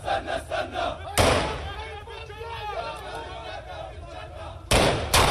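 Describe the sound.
A few sharp, loud gunshots are fired into the air at a Palestinian militant's funeral procession in the West Bank, cracking above a crowd that shouts and chants throughout.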